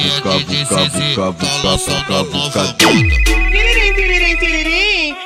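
A telephone ringtone plays inside a loud Brazilian funk track, its electronic tones merging with the beat, a deep bass sweep and a sustained high tone.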